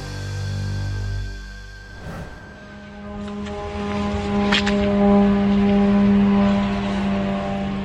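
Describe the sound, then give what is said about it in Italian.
Attack drones launched from Iran toward Israel fly overhead with a droning engine buzz of sustained tones. The sound grows louder after a couple of seconds and holds as a steady hum. “Questo è il rumore dei droni lanciati verso Israele.”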